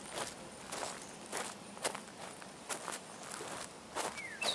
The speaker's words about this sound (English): As you walk, your feet make a rhythmic sound on the dirt trail.